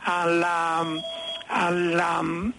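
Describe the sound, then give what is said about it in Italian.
A telephone ringing at an inopportune moment, two long bright tonal rings separated by a short gap, each a steady harmonic tone that bends slightly at its end. “qui c'ho un telefono inopportuno al momento”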